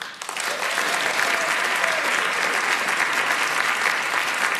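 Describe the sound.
An audience claps steadily to welcome a performer to the stage. The dense, even applause holds at full strength from just after the start to the end.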